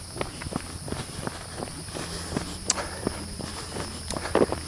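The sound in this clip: Running footsteps of a person jogging along a street, many quick irregular footfalls, mostly soft with a few louder strikes near the end, over a steady faint high hiss.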